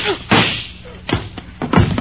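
Gunshots during a tense confrontation: a few heavy, sharp bangs with dull, thudding tails, loud against a muffled background.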